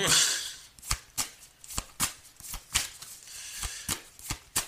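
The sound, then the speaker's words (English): Tarot cards being shuffled for a reading: a steady series of many crisp, papery snaps and flicks, evenly spaced and moderately loud, with no voices. “May I have another card, please? Thank you. Two cards came out.”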